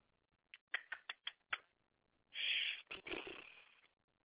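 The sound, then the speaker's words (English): Keypresses dial a phone number on a switchboard: six short, sharp clicks in an uneven run, followed by a longer, harsh, noisy burst. “So let's just type in her number here. We'll try to dial out from the switchboard and see what happens.”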